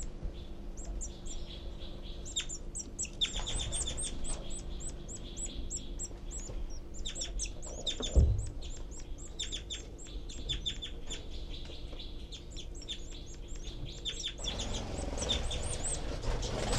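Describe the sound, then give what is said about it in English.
Two baby birds beg loudly from their nest with dense, shrill chirping that repeats rapidly and continuously throughout, broken by a single brief thump near the middle. “I can hear both babies and see them both furiously begging.”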